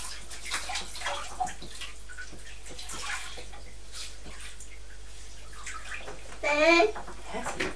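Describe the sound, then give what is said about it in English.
Soft splashing water as a child rinses hands and face, with faint trickles and small splashes, and a louder splash near the end. It plays low beneath voices, including an adult and a child speaking. “Just rinse your hands and face.”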